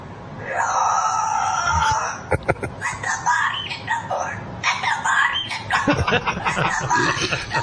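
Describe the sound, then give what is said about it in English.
A pet cockatoo mimics a song with many warbling, screechy vocal phrases that rise and fall in pitch. Short choppy bursts are strung together in an uneven rhythm. “bought a cockatoo from a guy on Craigslist, and it keeps on making these noises. If you guys know what he's saying, could you tell me what do you make of this? Hello, pretty bird. What you saying?”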